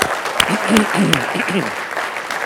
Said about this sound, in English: let's give one big hand and welcome everyone who's tuned in